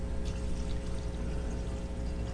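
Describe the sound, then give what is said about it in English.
Water poured into a container with an adult's help, a steady rushing splash that holds at an even level throughout. “Can you pour that in there? Okay, we'll help you there.”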